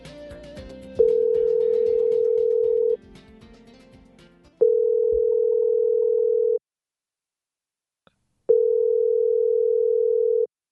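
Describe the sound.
A telephone tone while calling a hotel sounds in three long, steady, even bursts separated by pauses, with busy background music-like sound beneath the first part.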